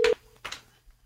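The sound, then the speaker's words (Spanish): A short, loud electronic keypad beep as a telephone number is dialed, followed by a faint trailing tone and a brief softer burst of noise. “vamos a ver si Edna nos contesta el teléfono”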